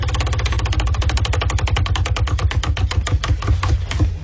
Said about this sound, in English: Nah, let's spin the wheel, okay?